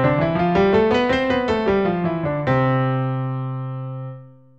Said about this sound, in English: Everyone has heard a major scale like that at least once in their life,